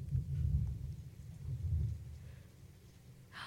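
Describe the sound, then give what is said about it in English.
Soft, low rolling thunder from a storm in Los Angeles, with two slow swells of deep rumble a little over a second apart that fade between them, and no talking. “whoa, thunder. Wow. Well, if you hear some rain in the podcast, it's storming in LA.”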